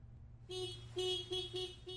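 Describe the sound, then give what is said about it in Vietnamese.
Car horn honking outside on the street: a series of short, bright toots over a low traffic rumble, loud and closely spaced. “Tiếng còi xe bên ngoài đường khiến cho Tân”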